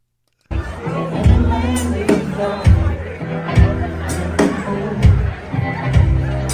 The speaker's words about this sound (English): I don't think I've ever been at a show where there was this much chatter in the crowd.